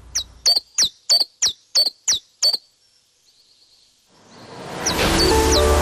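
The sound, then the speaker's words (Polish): Recorded birdsong played in a radio studio: a quick, evenly spaced run of sharp, high chirps, then after a brief lull a rising noisy wash with more high chirps over it. “Co mi tu jakieś sztuczne ptaszki wpuszczacie? Przecież ja mam własne, tylko zamknęłam okna,”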